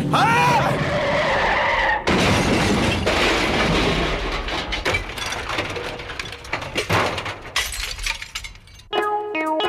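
Tires screech as an old car skids with broken steering, a loud, sustained, rough squeal that runs almost unbroken and turns into uneven rattling, crashing bursts toward the end.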